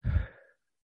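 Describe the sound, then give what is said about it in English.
A single breathy exhale, like a soft sigh, during a guided breathing exercise. It is strongest at the start and fades out within about half a second. “So we're going to take a deep breath in and exhale.”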